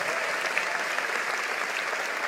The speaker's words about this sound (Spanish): Vamos, si lo crees, dale un aplauso al Señor.